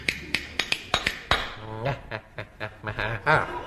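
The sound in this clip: Clattering spoons as a comedy sound effect: a quick run of about six sharp, hard taps, then a string of short warbling, voice-like noises.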